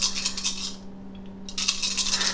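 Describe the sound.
Dice rolled during a tabletop role-playing game: a busy rattling clatter that drops away briefly midway, then resumes, over a steady low hum.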